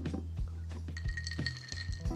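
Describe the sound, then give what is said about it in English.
Apple juice being stirred into a fruit smoothie, heard as light, sharp clinks tapping unevenly several times over a steady low hum. “So I'm gonna go ahead and put some of this apple juice in my smoothie as well. And then, yeah, I'm just gonna shake it up a little bit, you know, stir it up.”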